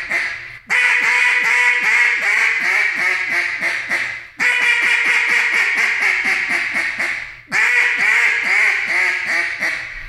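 Loud, rapid quacking from a double-reed duck call being blown, delivered in three long runs of many sharp quacks, each run starting strong and trailing off before a brief gap.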